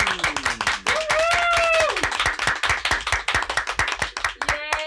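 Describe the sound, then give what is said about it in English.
A small audience clapping for an invited guest, with crisp individual claps in a quick, fairly steady rhythm and voices whooping and cheering over the first half. “Please give a round of applause for Karen Tansky!”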